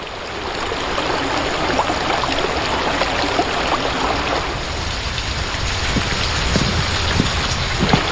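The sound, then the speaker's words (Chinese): Water rushes through a covered drainage channel beneath bluestone slabs in a village after a sluice gate is opened. A dense, steady roar and patter runs unbroken throughout, with no voices. “随着闸门开启，水流沿着青石板下的暗渠奔涌。”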